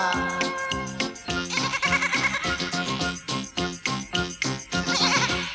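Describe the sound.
A goat kid bleats in a few wavering cries over steady, rhythmic music.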